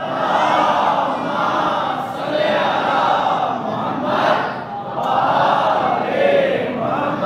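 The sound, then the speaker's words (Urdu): A large crowd recites durood, blessings on the Prophet's family, together in unison. Loud massed voices rise and fall in repeated surging phrases that run continuously. “ایک دفعہ مل کر جس میں جتنی طاقت ہے آل محمد پر درود بھیجتا ہوا آگے بڑھ جائے.”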